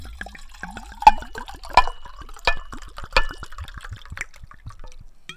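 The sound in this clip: Liquor poured into a cup as a libation at a comedy show: uneven splashing and dripping with several sharp, bright clinks spaced about a second apart, moderately loud, with no voices.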